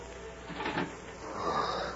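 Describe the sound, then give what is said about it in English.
A room door creaks slowly open, a drawn-out, faint, groaning squeak with a thin high tone gliding gradually lower over about two seconds. “And the door of the room creaked slowly.”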